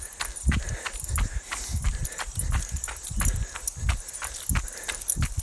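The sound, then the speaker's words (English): Footsteps of a person running outdoors at a picked-up pace: many soft, low thuds in a steady, even rhythm, fairly quiet. “I don't know if you can hear it in my footfalls, but we just picked it up a bit.”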